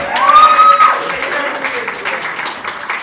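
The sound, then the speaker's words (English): A crowd in Chicago applauds and cheers, a loud wash of clapping that swells at the start and then holds steady, slowly easing off. “Can we hear it for Chicago?”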